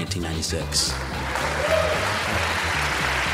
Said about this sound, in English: Applause for Bob Dole's run for president.